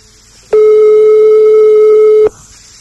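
A single long, loud ringback tone of a phone call being placed, a steady buzzing pitch lasting nearly two seconds before it cuts off into quiet.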